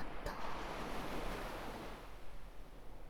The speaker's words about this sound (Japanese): 私の吐息と波の音に身を委ねて、今は静かに